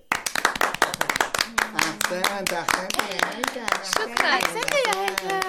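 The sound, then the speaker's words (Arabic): Children clap for a pupil who has just finished reading the first page of lesson ten aloud in class: many quick, dense claps in a steady patter, with voices sounding over the applause. “ولما أكمل هيثم قراءة الصفحة الأولى من الدرس العاشر، صفق له الجميع وشكرته المعلمة هناء كثيرا.”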